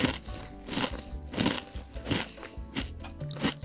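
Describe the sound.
Crisp crunching as someone eats a crispy snack: loud, sharp bites and chews in a steady rhythm, repeating about every two-thirds of a second, with no talking over them.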